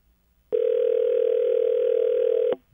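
Telephone ringback tone on an unanswered call: one steady, loud mid-pitched tone lasting about two seconds that starts abruptly and then cuts off, with no voices.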